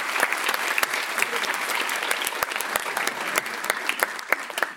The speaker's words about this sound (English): Let's give them a hand.